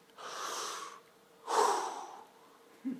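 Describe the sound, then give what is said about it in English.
Two long, airy breaths, one drawn in and one let out, each lasting about a second with a short pause between, soft and with no voice. “Sometimes the closest you can get to the name of God is simply to breathe in and out.”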